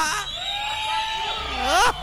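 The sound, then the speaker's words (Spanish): Audience at a live event: women shout and men whistle, with high sustained whistle tones and sliding cries over steady crowd noise, growing louder near the end. “es un placer a ver el grito de las comadres. El chiflido de mis machos alfa.”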